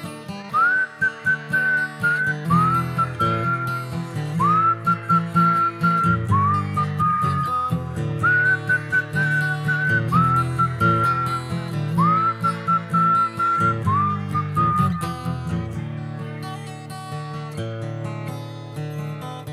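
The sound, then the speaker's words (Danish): A person whistles a bright, lilting tune in a children's song, repeating short phrases over steady musical accompaniment for the whole clip. “En gang, da han var mindre, der kunne han ikke fløjte spor. Men så en dag, så kunne han pludselig”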